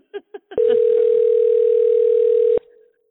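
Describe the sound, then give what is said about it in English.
A telephone call goes unanswered: three short blips, then one loud, steady ringing tone at a single pitch for about two seconds that cuts off abruptly, followed by a faint low murmur. “yeah, not answering. Uh, what time is it in Pakistan right now? Maybe they're going to bed.”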